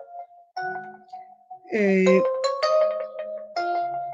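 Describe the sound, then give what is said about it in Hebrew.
A mobile phone rings with a melodic ringtone, a few clear electronic tones stepping between pitches, fairly loud and separated by brief gaps. “סליחה, אני הולכת, תקחו לי רגע, אני הולכת להביא את הטלפון הזה במקום אחר.”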